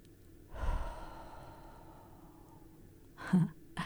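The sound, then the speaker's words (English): Deep breathing during a guided exercise: a long, soft intake of air followed by a quieter exhale, then a sharper breath near the end, heard alone without talk. “Breathe deep, all the way into your spiritual bones. Let's do it right now.”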